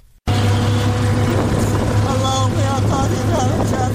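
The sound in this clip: Engine of an auto rickshaw on Peshawar Ring Road starts abruptly and then drones steadily, a loud, low, humming putter that carries on without a break.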